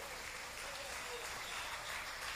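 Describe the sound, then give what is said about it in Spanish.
A church audience applauding: a soft, continuous wash of clapping that stays at a steady, quiet level throughout. “Si ese aplauso es para Cristo, se muere de hambre el Señor con eso.”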